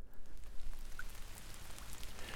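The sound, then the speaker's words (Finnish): Raindrops fall from the branches of an old spruce forest at Öjen in Vaasa just after a spring rain has stopped, making a steady, dense patter of many small drips, with no voices. “Kevätsade loppui just, mutta sade jatkuu täällä metsän sisällä vielä oksilta putoavina pisaroina.”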